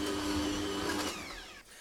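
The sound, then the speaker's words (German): A kitchen food processor kneads bread dough once all the flour is in, giving a steady, loud motor whir with a grinding, churning texture that holds throughout and eases slightly near the end. “das Mehl ist jetzt alles in der Küchenmaschine und jetzt soll das Ganze 5 bis 8 Minuten vor sich hin kneten.”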